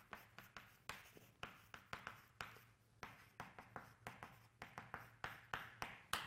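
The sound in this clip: Writing on a board: many quick, scratchy strokes and light taps come in uneven bursts, faint and alone without any talk.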